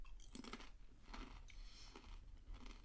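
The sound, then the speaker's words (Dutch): Crunchy chip being chewed, several crisp crackling bites in an uneven rhythm, faint and with no talking. “Dan eet ik even een chipje. Mensen met, eh, die niet tegen smekgeluiden kunnen. Dit is een warning.”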